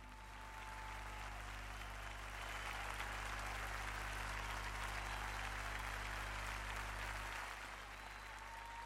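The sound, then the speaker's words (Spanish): Applause from an audience after a live song performance, a dense, steady roar of many clapping hands that holds strong throughout and eases slightly near the end, with no voices over it. “Aplausos.”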